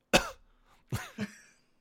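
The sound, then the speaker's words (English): A man coughs three times: one strong burst, then after a pause two quicker ones close together. There is no talk. “he clearly coughs and makes it clear that he would like to be one of the men with Van.”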